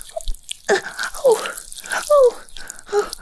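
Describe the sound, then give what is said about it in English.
Wet, pitched drips and squelchy plops as tentacles emerge from the floor. A few separate events come in an uneven rhythm, each a short, liquid blip with no voices. “Oh no! Oh no! You've called tentacles out of the floor!”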